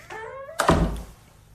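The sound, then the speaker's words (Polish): A door sound effect prepared for a staged scene: a short, tonal creak, then one heavy thud that rings out and fades, with no talk over it. “Ja przygotowałem taki efekt drzwi, zobaczymy jak on zabrzmi.”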